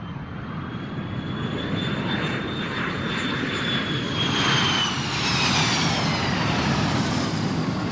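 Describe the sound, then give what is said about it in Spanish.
Airplane flying overhead, a continuous broad engine roar with a thin high whine riding above it, swelling gently through the middle and dipping slightly in pitch toward the end. “Claramente es un avión”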